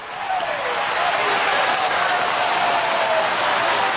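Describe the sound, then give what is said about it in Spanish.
A church audience applauding, a loud, steady wash of clapping that holds without a break, with a voice heard over it. “¡Sigue aplaudiendo, sigue aplaudiendo, sigue aplaudiendo ahí! ¡Se va a sanar aplaudiendo, se va a libertar aplaudiendo! ¡Aplauda ahí, aplauda ahí!”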